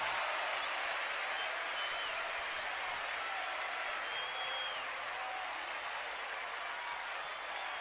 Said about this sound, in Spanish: Un aplauso para él.